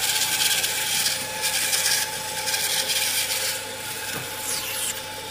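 A jigsaw cutting through an ice core, a continuous harsh rasping grind that surges and eases in waves, steady and loud throughout, with no voices.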